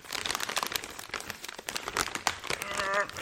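Scraping, crinkling cardboard as a large poster tube is forced open, with rough rustling bursts throughout and a brief squeaky tone near the end.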